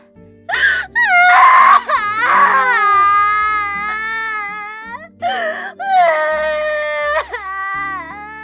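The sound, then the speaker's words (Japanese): A person sobbing uncontrollably, with several long, quavering wails that waver in pitch, broken by short gasping breaths between loud bursts of crying. “ここお店の前なので。こっち。はい、ここなら泣きじゃくっていただいて大丈夫かと。”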